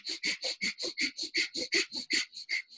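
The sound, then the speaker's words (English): Breath of fire, rapid Kundalini yoga breathing through the nose, puffs out in many quick, evenly spaced, hissing nasal bursts at a steady pumping rhythm, fairly soft and with no talking. “Breath of fire is from Kundalini yoga, and it's a very funny sounding breath that's through the nose, and it sounds like.”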